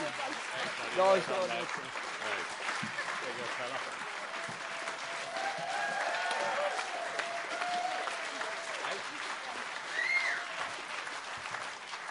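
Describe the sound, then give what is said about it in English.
Warm audience applause at a poetry slam event: steady, dense clapping that lasts throughout, with a voice briefly rising over it near the start and end. “Yeah, let's give him a really warm round of applause.”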